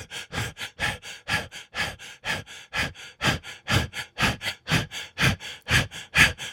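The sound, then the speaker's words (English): Rhythmic, forceful breathing in and out during a guided breathing exercise. Many quick, evenly spaced breaths pulse in a steady rhythm, loud and alone. “From the root, breathe in and out.”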